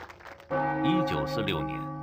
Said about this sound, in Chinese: 1946年5月28日0点的钟声敲响